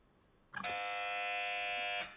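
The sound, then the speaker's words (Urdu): A quiz-show buzzer is pressed on a religious quiz about the Quran, giving one steady, harsh electronic tone that lasts about a second and a half, loud and alone. “ایک بار پھر buzzer پہلے press کر دی ہے”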